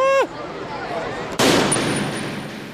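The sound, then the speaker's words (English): Blaster gunfire from costumed 501st Legion troopers at Emerald City Comic Con: a quick falling electronic zap opens, followed by a loud, sharp burst that slowly decays. “They're shooting!”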